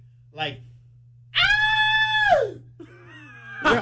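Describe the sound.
A voice imitates a high-pitched scream: one sustained, shrill cry lasting about a second that slides downward at its end. Shorter vocal sounds come before and after it, over a low steady hum.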